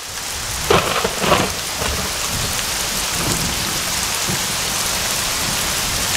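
Rain pours down in a steady, loud hiss of a heavy downpour. Brief thunder-like rumbles break through near the start before the rain continues evenly alone.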